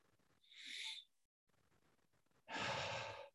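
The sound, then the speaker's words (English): Deep breathing during a guided prayer and meditation: two long, airy breaths, each lasting under a second, separated by a quiet pause of over a second, with no talking. “We can take a few deep breaths together right now.”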